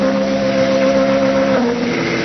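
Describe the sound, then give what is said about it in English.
A taxi cab engine runs as a radio drama sound effect, a steady humming drone with a fixed tonal pitch that shifts slightly near the end and carries on alone. “There's someone else in the cab. He's a friend of mine. Don't bother him, and he won't bother you. If you already had a passenger, why didn't you turn your meter down?”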